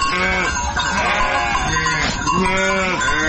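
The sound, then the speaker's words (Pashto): A flock of hundreds of sheep bleats on dry steppe land in a rural district of Ghazni province. Many loud, overlapping bleats of varied pitch continue without a break. “شایسته خان کوچای د غزنی قرباغ ولسوالۍ په باغ یا تر دشته کې د سلګونو پسونو رمه پیایي”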